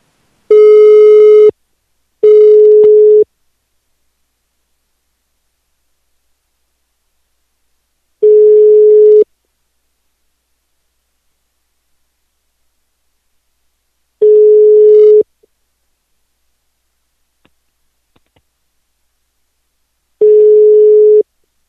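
Telephone busy signal after a call is placed: five steady, mid-pitched tone bursts, each about a second long, separated by long stretches of silence.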